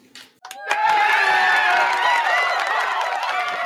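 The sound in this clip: A cheering-crowd sound effect played from a phone bursts in after a few brief sounds, then holds as loud, sustained cheering and applause.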